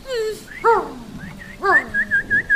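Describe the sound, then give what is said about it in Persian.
A dog whimpers and whines in high, wavering tones that fall away, then gives a run of a few short, evenly spaced high whines at the end. “ببخشین آقا، میشه به این سگتون بگین پوزشو بکشه کنار؟”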